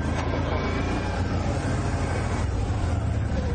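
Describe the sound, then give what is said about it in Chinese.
Engine of a Bombardier all-terrain vehicle in high-range four-wheel drive climbing a steep, rutted slope, a steady, dense rumble with drivetrain noise and a constant throttle. “我用 H 档试一试，现在往上走，让不要让自己拖底，然后含着油门就上来了，很轻松。”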